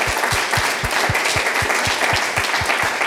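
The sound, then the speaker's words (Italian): Audience applause for a remembered colleague at a gathering: loud, dense clapping driven by a steady rhythmic beat of low thumps, roughly four per second, keeping an even pace throughout. “Allora, direi che facciamo un applauso per lui,”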